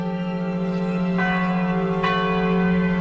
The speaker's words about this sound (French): Quand vous entendez sonner l'Angélus,